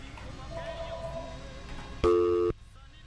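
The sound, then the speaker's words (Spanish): A telephone tone after a dropped call sounds as a single loud, steady electronic beep lasting about half a second. It follows quieter talk and then cuts off abruptly. “Se le cortó la llamada a la hermanita.”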